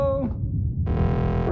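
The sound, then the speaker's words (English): An arcade machine gives off electronic tones: a brief steady tone, a pause, then a louder, buzzy, sustained harmonic drone that holds steady to the end. “What was that? One of the arcade machines made a noise.”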